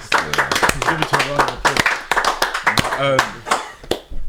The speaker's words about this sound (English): I think we should give each other a round of applause.